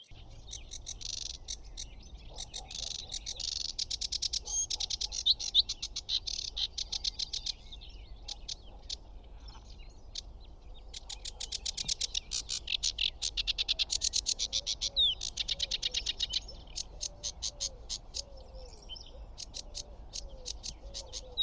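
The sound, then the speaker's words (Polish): Whinchat singing, a bird growing rare in Poland, heard at a warbler habitat: many long bursts of rapid, high chattering song, repeated throughout, fairly faint over a low rumble. “I pokląskwa też gdzieś śpiewa tutaj, po drugiej stronie.”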